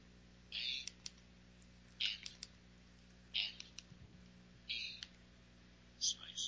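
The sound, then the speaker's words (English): Keys on a phone keypad pressed to enter a name by multi-tap text entry: five short clusters of quick clicks at fairly even intervals, faint over a steady low hum. “I'm just going to use the multi-tap text entry method to type in her name.”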